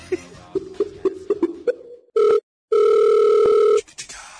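Telephone ringing while calling a friend: a quick series of short dialing beeps, then a brief ring tone burst, a pause, and a longer steady ring tone.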